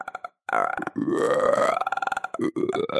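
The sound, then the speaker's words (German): A long, loud human burp, croaky and drawn out with wavering pitch, made by a voice imitating a frog's croak, after a few short voiced grunts. “Oh, da ist ein Rülpser”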